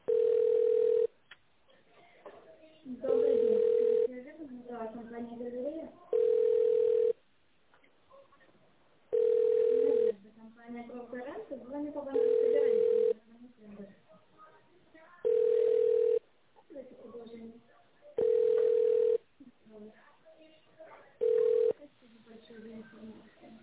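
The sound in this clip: Telephone ringback tone during a call transfer: eight regular one-second tone bursts about every three seconds, with voices and other sounds filling the gaps between them.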